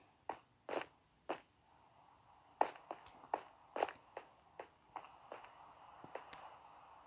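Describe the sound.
Running footsteps in a video game: many sharp, crunchy steps in a quick, slightly uneven rhythm, clear and fairly loud with no talk over them.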